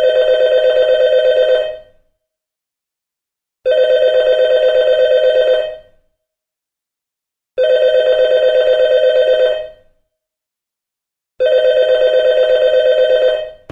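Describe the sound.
A telephone rings with four long bell bursts, each about two seconds, separated by silent gaps of similar length, loud and alone with no voices.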